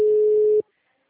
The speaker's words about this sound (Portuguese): tô ligando